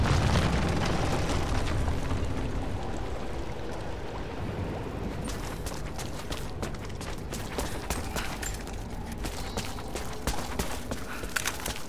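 Greek fire explodes in a video game, used to topple an unstable statue. A low, rumbling, crackling roar swells at the start and then carries on as a sustained, fairly quiet fiery rumble.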